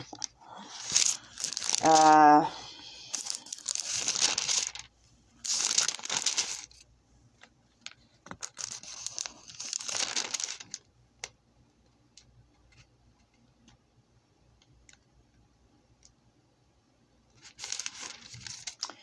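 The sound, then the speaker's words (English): Pages of a book being turned, heard as several separate papery rustles and crinkling swishes with quiet gaps between them, fairly soft overall. “as you can hear, I'm turning pages.”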